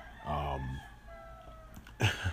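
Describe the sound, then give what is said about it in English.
Chickens cluck and a rooster crows in two short, loud bursts of harsh, nasal calls, separated by a quieter stretch of soft farmyard background. “those are chickens if you're not listening. If you didn't hear.”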